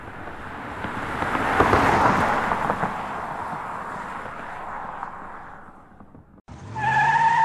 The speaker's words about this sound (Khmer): សំឡេងមកទួបានលឺឡើងពី ឆ្ងាយទៅជិតមានសំឡេងរថយន្តចាប់ហ្វ្រាំងរថយន្តមួយគ្រឿងបានឈប់នៅមាត់ទ្វារ